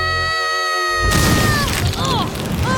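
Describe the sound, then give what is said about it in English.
A barbecue explodes: a sustained tone is cut off by a sudden loud blast that carries on as a rumbling, crackling roar with whistling sweeps layered over it. “Barbecue explode!”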